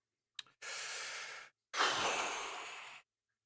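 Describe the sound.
A deep breath, heard as two long, airy breath sounds after a faint click, the second fuller and slightly louder than the first, with nothing else around them.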